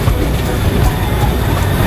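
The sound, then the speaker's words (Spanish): A train crossing the first of four bridges on the west side of the island on the San Cristóbal railway, heard as a loud, steady rumbling roar with a heavy low end and no breaks. “El tren cruza el primero de cuatro impresionantes puentes en el lado oeste de la isla. El ferrocarril de San Cristóbal tiene su propia definición de velocidad.”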